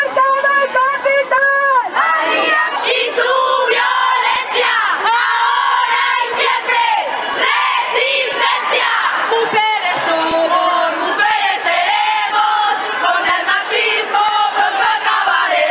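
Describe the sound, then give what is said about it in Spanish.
A large crowd chants in unison at a street demonstration against gender violence in Valencia. Loud, sustained voices rise and fall in rhythmic shouts throughout. “este 25 de noviembre hemos estado en la manifestación celebrada en Valencia contra la violencia de género”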